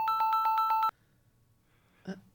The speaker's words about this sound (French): Ah non, je vais le rappeler encore une fois. On va essayer encore une fois.